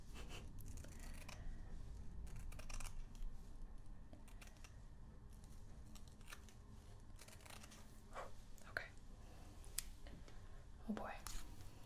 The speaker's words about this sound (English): Cutting it pretty ragged. Probably have to redo it later.